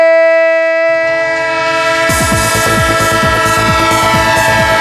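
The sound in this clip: A train sound effect opens with a loud, sustained multi-tone horn, then low rumbling joins and a fast, rhythmic clatter of wheels on rails builds beneath the horn.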